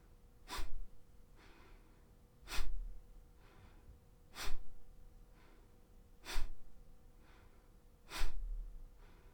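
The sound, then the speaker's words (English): Five forceful exhales from a breathing exercise, each driven by pulling in the belly on the out-breath. They arrive as sharp, breathy puffs evenly spaced about two seconds apart, with softer inhales between them. “Now we're going to make the breath a little more forceful by sucking in on your diaphragm, your tummy, on the exhale.”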